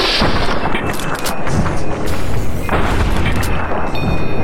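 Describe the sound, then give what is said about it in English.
Heavy gunfire in a video game, loud booming shots and rumbling blasts that follow one another in quick succession. “Yeah, you're hit. Now he turns around and starts shooting back.”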